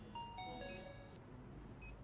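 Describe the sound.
Faint phone ringtone of a few chiming electronic notes stepping down in pitch, heard over steady low background hiss with no talk.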